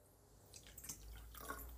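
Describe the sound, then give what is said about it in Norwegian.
Faint bubbling in water sounds alone, with soft, irregular gurgles and pops that grow slightly busier toward the end. “Det var lyden av bobler.”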